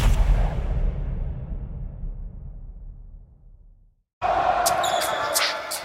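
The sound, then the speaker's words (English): Basketball dribbling on the court during Game 1 of the 2017 NBA Finals, low bounces thudding under a fading crowd roar, then a brief silence before loud arena noise returns. “Here comes Curry. Step back off the dribble three.”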